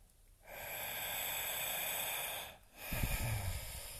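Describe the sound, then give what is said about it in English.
A deep inhale into the belly: a long, steady breath rush lasting about two seconds. A short pause follows, then another breath begins. “Take a nice deep inhale into the belly. Relax the exhale into the belly. Another one.”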